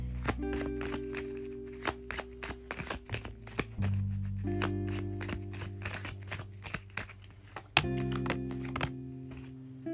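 Tarot cards are shuffled and drawn, with many quick, crisp flicks and taps over steady background music.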